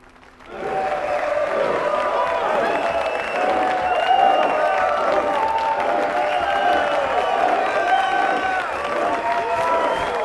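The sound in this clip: A theatre audience applauds at a curtain call, with dense, sustained clapping that swells up after a brief quiet moment. Scattered shouts and cheering voices mix in throughout.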